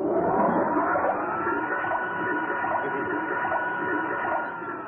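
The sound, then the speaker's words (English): A washing machine motor runs with a shirt and washing powder inside, giving a loud, steady whirring rumble that holds constant from start to finish without pauses. “Look, first I put your shirt in the machine. Yeah. See, then I'll sprinkle some of this powder into it, and I start the motor.”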